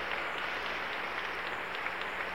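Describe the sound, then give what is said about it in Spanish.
An audience applauds during a church sermon. The clapping is faint and even, a steady wash of hand claps with no clear breaks across the short clip. “Aplauso a esta palabra, hermano. Aplauso a esta palabra.”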